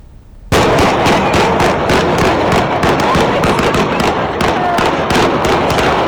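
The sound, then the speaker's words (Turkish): Gunfire from an armed clash between feuding families in a neighbourhood of Polatlı, Ankara: loud, dense crackling volleys erupt suddenly and continue rapidly without pause. “Herkesin elinde silahlar vardı ve birbirleriyle mahallede çatıştı husumetliler.”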